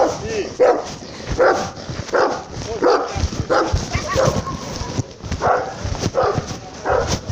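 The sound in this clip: A dog barking many times in a fairly steady rhythm, with sharp, loud, repeated barks throughout.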